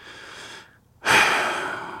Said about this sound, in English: A flame flickers on the back of my right hand, and I take a deep breath.